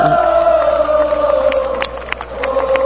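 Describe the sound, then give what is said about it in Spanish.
A concert crowd sings together at Hyde Park in London. Loud, sustained tones hold steady across the whole stretch, with a few sharper bursts of noise on top. “Acá el mismo público cantando. Y dándole la contra a los mismos organizadores.”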